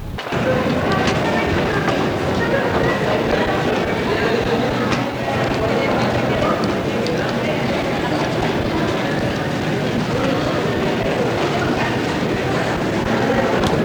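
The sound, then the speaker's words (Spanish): Busy ambience in a pedestrian corridor of Bellas Artes metro station in Mexico City, where it crosses Line 2: a steady, loud wash of footsteps and crowd murmur with indistinct voices throughout. “Ahora ya sobre uno de los pasillos de la estación Bellas Artes, que cruza exactamente con la línea 2, dirección 4 Caminos Tasqueña”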